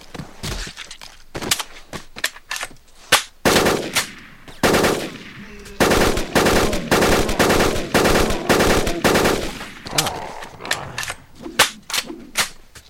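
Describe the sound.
Burst-fire weapons shoot in a video game: many loud volleys of sharp, rapid gunshots, some tightly clustered and others spaced apart, repeating throughout with no voices.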